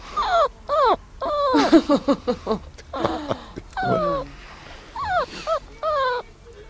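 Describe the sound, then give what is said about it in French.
A dog whimpering and crying, with many short, high whines and drawn-out wails that bend up and down in pitch. The cries come in uneven bursts, fairly loud, and no one talks. “Télé-Sambre a laissé toute l'interview du chien qui pleure”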